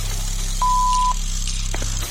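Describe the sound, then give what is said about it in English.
A voicemail beep tone: one steady, mid-pitched electronic beep lasting about half a second, over a constant low hum. “someone is available to take your call. Please leave a message after the tone.”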